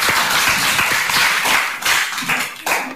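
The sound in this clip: Audience applause after a devotional Shyama Sangeet song, a dense spatter of hand claps that holds steady and then thins into a few separate bursts near the end, with no voices.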